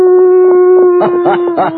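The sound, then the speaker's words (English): A person imitates a coyote howl with one loud, sustained, harmonic vocal tone that breaks into a wavering, warbling cry toward the end. “This has to be a coyote. Well, here goes.”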